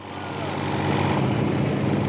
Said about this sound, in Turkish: Hadi bir deneyelim. Jeneratörü çalıştırıyorum.